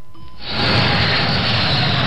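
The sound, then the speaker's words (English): A jet plane taking off. Its roar surges in after a brief quieter opening with a faint tone, then holds as a loud, broad, steady rush of engine noise. “That's the symbol of the jet age, the jet plane takeoff.”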